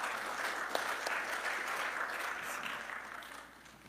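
Audience applause welcomes a scripture reader to the stage at a service: a steady, dense wash of clapping that holds evenly, then thins and fades toward the end.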